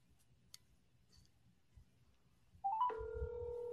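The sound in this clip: Telephone call tone as a call is placed. After near silence with a few faint clicks, a short tonal chirp leads into a steady, held two-pitch tone that runs to the end.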